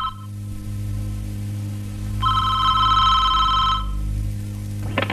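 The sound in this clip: A telephone rings once in a single sustained electronic burst over a steady low hum. The ring stands out clearly from the quieter background.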